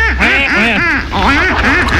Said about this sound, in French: Les canards les plus connus sont le colvert, le barbarie, le canard de Pékin ou aussi le rouennais.